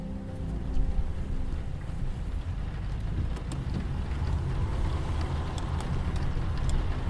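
Heavy rain during a night drive through open desert: a steady, low rumbling downpour with scattered sharp ticks of drops, fairly faint and continuous throughout.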